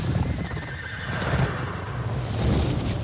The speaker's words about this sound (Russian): По полям носится белая лошадь.